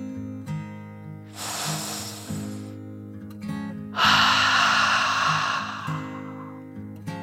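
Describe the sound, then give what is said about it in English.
A deep breath in and out: two long, airy rushes of breath, the second louder and longer, over soft, steady background music. “Taking another deep dragon breath in and out.”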